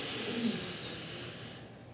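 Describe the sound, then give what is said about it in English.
A slow breath in taken during a guided prayer, a steady airy hiss that runs for nearly two seconds and thins out toward the end. “And now God breathes into you. Breathe in.”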